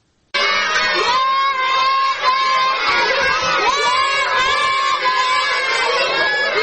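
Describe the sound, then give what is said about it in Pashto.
Children in Nahri Sarraj district, Helmand, shouting together in a loud, continuous crowd of overlapping high voices with cheering. The chorus stays steady throughout, with small swells and brief dips. “دا د هلمند په لهري سراج ولسوالۍ کې هغه ماشومان دي چې له هر ډول زده کړو بې برخې وه”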